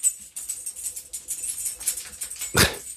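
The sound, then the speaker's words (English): A pet dog gives one sharp, loud bark near the end, preceded by faint, fluttering background noise. “Apologize for that noise if you heard it. That was my dog.”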